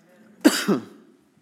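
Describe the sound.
A cough from a tickle in the throat: two quick, harsh bursts close together, short and fairly loud, followed by quiet.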